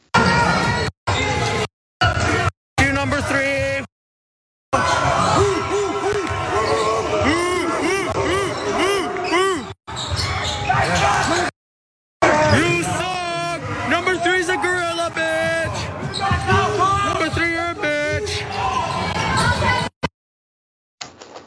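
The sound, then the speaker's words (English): Crowd in the stands at a high school basketball game, where spectators taunted a 16-year-old player with ape noises. Loud, continuous chatter and shouting rises and falls, broken by several abrupt silent gaps, with voices throughout. “Remember the 16-year-old child who was playing basketball and being taunted by others in the stands, being called a gorilla. They were making ape noises. Let me remind you, here's the video.”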